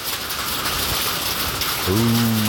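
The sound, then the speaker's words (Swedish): Heavy hail pours down during a thunderstorm, a dense, loud, steady hiss of countless impacts that runs without pause the whole way through. “Det är ljudet av när det haglar det här ordentligt hemma hos Annika Svensson”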